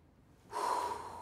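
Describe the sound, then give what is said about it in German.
One deep inhalation taken on request during a medical examination: a sudden, breathy, airy draw of breath that starts after a short quiet pause, holds, then eases off slightly. It is fairly faint and no voice is heard. “Und jetzt mal tief ein- und ausatmen. So ist gut. Nochmal bitte. Und einatmen.”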